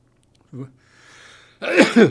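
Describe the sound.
A single sneeze, a loud voiced burst lasting about half a second near the end, follows quieter breathy vocal sounds.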